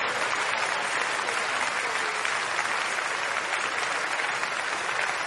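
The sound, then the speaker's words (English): Sustained audience applause at a religious gathering: a dense, steady wash of clapping that holds an even loudness from start to finish, with no single voice rising above it. “Keep encouraging them, please. Keep clapping.”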